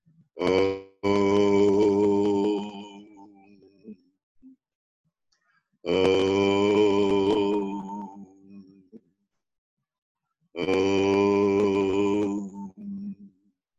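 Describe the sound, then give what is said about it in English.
Three long, low, resonant Om chants, the primordial sound, each voice held steady for a couple of seconds and separated by silence. “they can always chant pranava. Pranava meaning the primordial sound. That is Om.”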